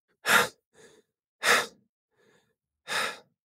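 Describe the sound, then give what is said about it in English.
Heavy breathing from an out-of-breath person: three loud, rough exhalations spaced about a second apart, each followed by a faint, softer breath, with no talking. “You're still out of breath?”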